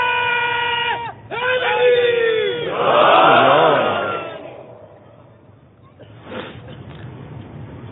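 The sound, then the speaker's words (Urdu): A crowd of mourners at a Shia majlis shouting the Nara-e-Haidari slogan: a lone amplified male voice calls out first, then a massed roar of many voices swells loudly, fades away, and a smaller shout rises again near the end. “یا پھر نعرہ ایسا لگائیے کہ شاہ Najaf کے دربار تک آپ کی آواز پہنچے. ایک نعرہ,”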